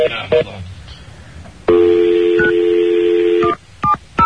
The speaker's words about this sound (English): Hold on, let me get her back on the phone.